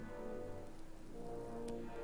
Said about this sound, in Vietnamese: Gió lạnh thốc vào kéo theo những làn nước mưa ướt át xâm nhập vào căn phòng. Ngoài trời đang có bão.